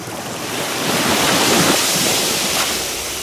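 Surf washing onto a beach, a steady broad roar of breaking waves that swells toward the middle and then eases slightly, with no voices.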